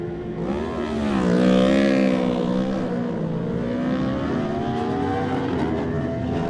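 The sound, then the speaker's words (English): A racing motorbike engine passes at speed during a road race, a loud buzzing harmonic whine that swells to a peak around the middle and then holds steady as it carries on. “Such a great sound. One of the Bessemer racing bikes here.”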